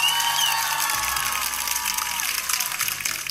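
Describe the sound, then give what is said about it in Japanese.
Audience applause and cheering played on a radio programme to thank listeners, a bright, busy wash of crowd noise that stays fairly loud and gradually eases off. “もう皆さんに拍手ですよ、これは、 聞いていただいてありがとうございます。 聞いていただいた皆様にあえて拍手を送りたいと。”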